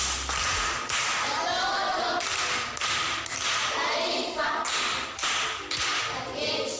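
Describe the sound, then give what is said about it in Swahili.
Sustained applause rewards a class 7 primary school pupil for a correct quiz answer: dense, even clapping that stays loud and steady for the whole stretch. “Makofi kwa shangazi.”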